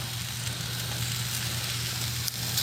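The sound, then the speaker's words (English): Meat sizzles over charcoal at a campsite in Earl Rowe Provincial Park, a steady faint hiss with a few brief crackles and a low hum underneath. “I noticed that too, that cooking over charcoal smells amazing, tastes good.”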